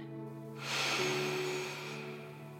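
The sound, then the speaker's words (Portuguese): A deep inhale of breath, a soft airy rush that swells quickly, holds, then slowly tapers off. It is faint, over a steady low background drone. “Perceba o seu pulmão enchendo de ar. Inspire.”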